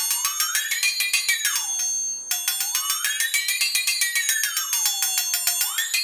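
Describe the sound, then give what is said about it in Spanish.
A flexatone, a bent, flexible metal sheet struck by wooden beads on springs, rattles out rapid ringing trills. Its pitch sweeps up and down in wavering arcs, and a short break interrupts the sound partway through. “Me parece, vamos a introducir un instrumento muy extraño y para mi gusto fascinante. El que lo ve, dice, es un serrucho doblado, con unas pesitas golpeadoras que parecen de adorno, más un juguete que un instrumento. Bueno, suena así.”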